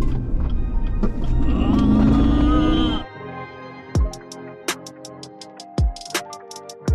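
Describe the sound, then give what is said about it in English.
A car drives and merges into traffic, its engine and road noise forming a loud, low rumble for a few seconds, then dropping to a quieter hum broken by a series of sharp, crisp ticks. “All right, I was just merging, all right? I make videos while I'm driving.”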